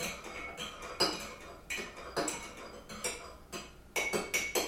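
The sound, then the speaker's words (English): A spoon stirs coffee in a cup, making many bright metallic clinks and scrapes in a quick, uneven rhythm, with louder knocks standing out here and there. “stir the coffee around with the spoon. Perhaps you can hear me stirring.”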